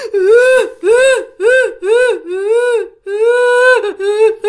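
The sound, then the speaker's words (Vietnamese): A person cries and moans in a series of drawn-out, wavering wails, each rising and falling in pitch. The sobs are loud, mournful and separated by brief gasping breaks. “cái tiếng khóc này nó lại càng lớn hơn nữa các bạn, nó cất lên mà nó vừa khóc nó vừa rên mà càng lúc càng lớn hơn, nó thảm thiết hơn mới nãy.”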